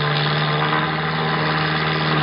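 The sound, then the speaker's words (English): Droning engine of a crop-dusting plane climbing out after a low pass to hook a line, a loud, even, harmonic hum that holds steady pitch throughout with nothing else over it. “Now he's flattening out, see? There's a hook dangling from the plane. He's making a pass at it now. Hooked it. He's a very skillful pilot, eh? Get down. He's climbing out this way.”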